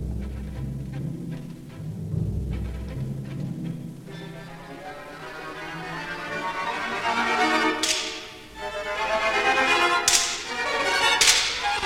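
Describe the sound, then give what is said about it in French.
Orchestral whip, or slapstick, snaps in a few sharp, loud cracks during the second half, following softer sustained orchestral tones. “Puis, avant qu'ils ne jouent tous ensemble, le fouet.”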